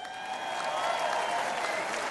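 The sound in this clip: Audience applause at a Republican political speech, steady, dense clapping that holds at an even, moderately loud level throughout the short stretch with no voices over it.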